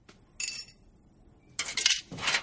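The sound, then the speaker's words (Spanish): Blue crystal dropped into a container during chemical lab work, giving bright glassy clinks: one short chink, a pause, then a longer cluster of clattering clinks. “Pone el cristal en un recipiente.”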